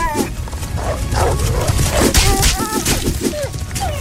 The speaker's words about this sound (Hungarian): Most is a rinocéros nyírta ki a kutyát.